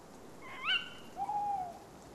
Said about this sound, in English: Tawny owls breed early, so that their chicks hatch in time for the abundance of spring.